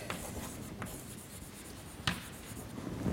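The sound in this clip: A pen scratches across a surface while drawing a Venn diagram of nested sets. Soft, continuous scraping carries a few sharper strokes, quiet and steady, with no voices.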